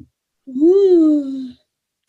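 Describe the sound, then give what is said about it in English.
A person yawns aloud: one drawn-out voiced yawn lasting about a second, its pitch rising and then sliding slowly back down. “Ooh. I'm yawning.”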